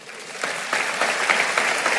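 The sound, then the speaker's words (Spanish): Audience applause during a talk: a dense, steady clatter of many hands clapping, swelling a little after the start and holding strong throughout, with no voices over it. “Y dele un aplauso al Señor.”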